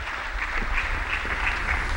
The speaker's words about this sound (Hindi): एक बार जोरदार तालियां हो जाएं।